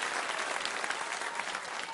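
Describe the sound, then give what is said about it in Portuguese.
A church audience applauds for Jesus in a steady, dense burst of many hands clapping together, holding at an even level for the whole stretch with no voices standing out. “Mais fortes as palmas com glória para Jesus.”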